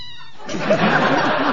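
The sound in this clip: A person imitating a cat's meow with a brief, high nasal tone, quickly followed by noisy talk in the same voice.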